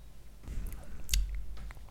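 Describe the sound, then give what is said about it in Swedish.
Someone tastes a rosé wine with citrus notes: faint wet sipping and slurping mouth sounds, with one brief sharper hiss of air drawn in near the middle, and no talk. “Men eh, vi smakar, får vi se om det här är en sån här söt kalasbomb.”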